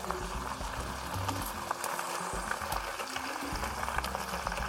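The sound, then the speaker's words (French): Spinach sizzles in a frying pan with a steady, dense crackling hiss that runs through the whole clip, while faint talk murmurs low underneath. “Alors on entend que ça crépite un petit peu, ça crépite, hop, et je mets mes épinards.”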